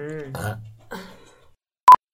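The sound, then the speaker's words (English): A light burp after drinking nog: a low, croaky belch lasting about a second and a half, then a short, high electronic beep. “I feel like this nog is giving me, like, light burps.”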